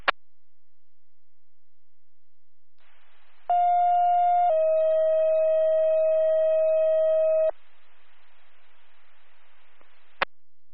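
Fire dispatch radio alert tones paging a fire company: a steady tone of about one second runs directly into a longer, slightly lower tone of about three seconds. Both are loud over faint hiss, with short clicks at the start and end.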